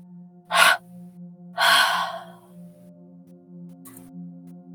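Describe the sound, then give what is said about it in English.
Breath drawn in through the nose, then released out through the mouth: a short sharp inhale, then a longer, fuller exhale, over a steady low tonal hum. “And one last time in your nose. Exhaling out of your mouth.”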